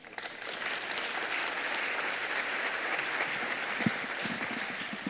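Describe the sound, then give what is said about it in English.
An audience applauds to welcome a speaker at a public talk on health and climate change. The clapping is dense and steady and lasts about five seconds, with a few low thumps near the end. “So put your hands together and welcome Kim, please.”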